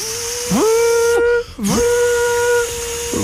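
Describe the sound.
A voice imitates a Minipimer hand blender with a buzzing, whining hum that swoops up in pitch and holds, breaks off briefly, then swoops up again and holds.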